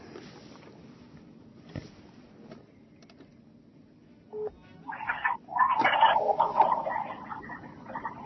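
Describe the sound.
Telephone tones as a call is placed to a guest. After a faint, hissy stretch, a short steady beep is followed by a louder cluster of warbling electronic tones.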